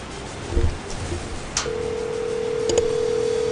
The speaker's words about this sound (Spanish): ya estamos marcando, ¿eh? Deme oportunidad.